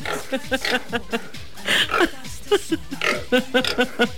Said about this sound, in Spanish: Ahí se escucha un puerquito.